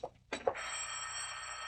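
An old-fashioned telephone bell rings in a suspense drama: a few brief jangles at the start, then a steady, loud, continuous ring that carries on alone with no talk.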